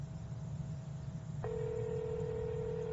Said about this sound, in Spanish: Por coger la llamada la tumbé, entonces le estoy llamando. Vamos a marcarle.